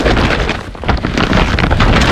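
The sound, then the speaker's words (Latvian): Dense, loud rustling of a bag full of IKEA goods, a continuous crinkling and shuffling that carries on without pause and without any talk. “Слышишь? Именно так шуршит мешок, полный товарами IKEA с раскупки.”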